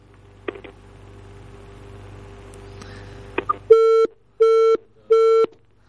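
Telephone busy tone after a call is cut off: three evenly spaced, steady mid-pitched beeps, each under a second long, follow a low line hum and a few faint clicks.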